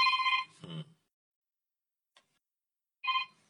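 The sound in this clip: A telephone rings in two bright, trilling bursts, one at the start and another near the end, separated by a stretch of near silence.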